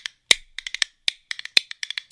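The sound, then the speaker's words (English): Rhythm bones of cow rib, about seven inches long, shaken by hand. Many sharp, bright clicks come in a quick, uneven rhythm with brief gaps, alone and without voices. “cow rib bones, or they can be made out of wood, about 7 inches long. And you get a rhythm sound with them.”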